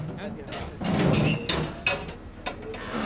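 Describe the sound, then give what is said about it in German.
Doors being opened, giving a few sharp clanks and knocks over a low, rumbling background. “Ich will erst die Türen aufmachen.”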